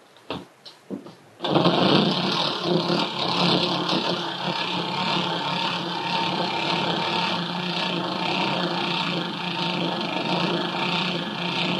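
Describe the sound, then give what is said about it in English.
Hand-cranked winding of a vintage Victrola phonograph, a collector's item: a few sharp clicks at the start, then a loud, steady mechanical whir with a fine, buzzing, ratchet-like texture that carries on to the end, with no voices. “Now, you'll hear me cracking up the Victrola.”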